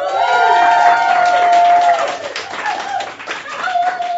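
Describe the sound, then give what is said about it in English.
Cheering and clapping from a live audience at a fiftieth anniversary festival event, with whoops and high whistle-like calls rising above steady applause that eases briefly before swelling again. “the noise you hear in the background is actual live people because this is our number 50 event, the Love and Hate Fest.”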